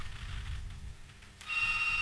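A telephone rings on a live call-in line. After a stretch of low rumble and hum, a steady, high electronic ring tone starts about two-thirds of the way through and holds loudly to the end, with no voices.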